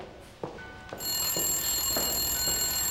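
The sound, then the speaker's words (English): A telephone bell rings steadily from about a third of the way in until the end, loud and continuous, with a few soft knocks heard before and under it. “Telephone call for you”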